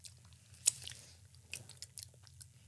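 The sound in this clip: Faint chewing of cheese-flavoured corn chips: one sharp crunch, then a few softer, irregular chews over a low steady hum.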